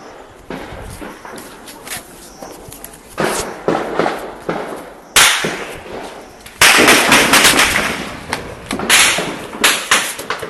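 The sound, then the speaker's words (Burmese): Gunfire over Mrauk-U town at night: many loud, sharp cracks and bangs, some in rapid clusters, turning into a denser, sustained volley in the second half. “အခုညပိုင်း9နာရီခွဲကျော်10နာရီလောက်မှာမြောက်ဦးမြို့ပေါ်ကနေကြားခဲ့ရတဲ့လက်နက်ပစ်ခတ်တံတွေဖြစ်ပါတယ်”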